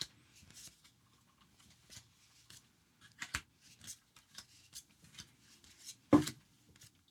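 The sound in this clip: Trading cards, including a few foils, are sorted by hand with many faint, soft rustles, slides and flicks in an uneven rhythm, and one sharper snap near the end.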